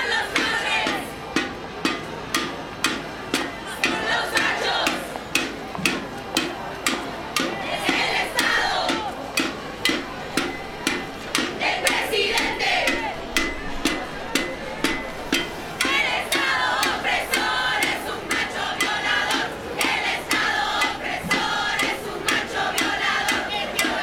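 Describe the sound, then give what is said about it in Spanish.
Girls and women gathered in a public space chant a protest song against abuse of women, loud and forceful in unison, over a steady beat that pulses throughout. “Las niñas, jóvenes y mujeres reunidas se mueven al ritmo de una canción que gritan con fuerza una canción que denuncia los abusos que sufren las mujeres cada día”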